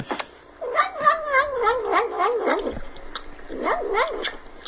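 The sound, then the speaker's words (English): A cat's warbling, wavering vocal murmurs made while it eats and licks, in two bursts of rising and falling tones, a longer run first and then a shorter one after a pause, with no talking. “See, it sounds like he's eating it's something. It's really funny, though. He is eating. That's what makes it funny. Yeah, he's eating. He's actually eating. Those noises come out of his mouth every time he licks.”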